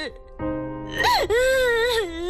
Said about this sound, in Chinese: 别哭了啊！